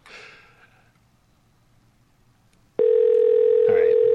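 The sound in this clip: A telephone line ringing on a call to a payphone that nobody answers. A soft breath and quiet line hiss come first, then a loud, steady, unbroken tone starts abruptly and continues to the end.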